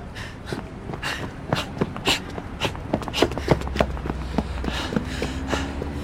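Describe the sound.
Footsteps of people running away, a quick, irregular patter of many hurried steps over a low, steady background rumble.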